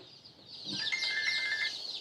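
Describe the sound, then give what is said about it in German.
Chicks peep in a poultry rearing barn on a farm in Lower Saxony during vaccination: thin, high chirps repeat in quick succession over a steady, hissing background, growing stronger midway and continuing to the end. “Christine Bremer impft im Aufzuchtstall ihre Küken.”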